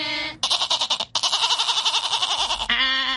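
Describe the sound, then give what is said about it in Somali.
Goat bleating: a few loud, wavering, quavering cries follow one another with only brief gaps, heard alone without talk. “ridu waxay u cidaa”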